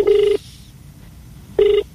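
A telephone ringing tone on a call to a radio call-in show comes as two short buzzing tone bursts, one at the start and one after a pause of over a second.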